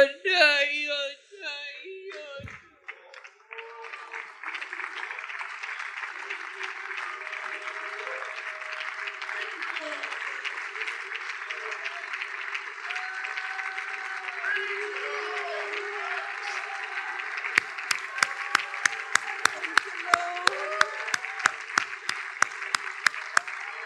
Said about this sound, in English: you all may be seated as we clap unto the Lord for his word.